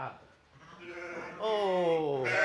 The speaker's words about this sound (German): Und er hütet die Schafe.